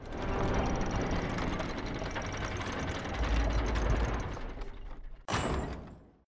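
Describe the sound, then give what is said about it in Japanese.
A main school gate slides shut with a steady rolling, rattling rumble for about five seconds, then breaks off into one sharp metallic clank at the end. “正門閉めるよ。遅刻したくない人は走れ。はい、正門閉めて。”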